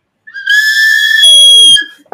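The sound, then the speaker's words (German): A cheap plastic toy whistle gives one long, shrill, steady blast lasting about one and a half seconds, and a lower tone slides downward just before the blast cuts off. “Das war eine Pfeife”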